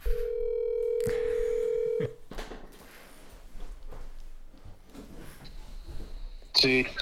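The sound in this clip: A telephone dial tone hums steadily for about two seconds, followed by quiet talk and a few more short phone tones as a caller is dialed.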